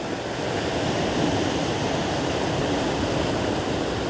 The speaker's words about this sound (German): Lausche dem Meer, lausche den Wellen, spüre die Kraft,